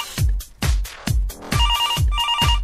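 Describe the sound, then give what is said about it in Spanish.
A telephone ringing as a call comes in: a loud, rhythmic ringtone of deep thumping beats repeating about every half second, with a warbling two-tone electronic trill joining in the second half, alone without voices. “Hola, teléfono. Tenemos una llamada.”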